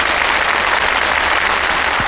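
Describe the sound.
Audience applause at a stage performance competition, a dense, steady roar of many hands clapping, loud and continuous throughout with no pauses or voices.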